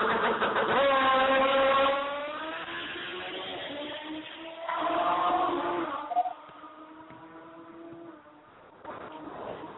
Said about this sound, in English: More mini bikes. Yeah, they had some badass mini bikes out here